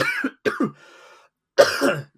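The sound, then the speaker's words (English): A person coughing and clearing their throat: a few short, harsh bursts, a brief buzzing stretch between them, then one final loud, rough cough, all without speech. “I'll edit this cough out.”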